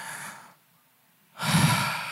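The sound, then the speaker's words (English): A voice imitates the exhausted breath of a man dying on a cross: a breathy exhale that fades out, a short silence, then a louder, rasping breath with a low, throaty edge, with no words. “you could just hear this exhausted breath”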